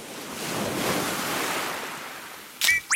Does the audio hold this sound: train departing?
no